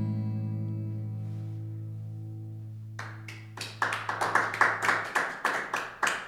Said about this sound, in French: Donc nous étions trois à applaudir.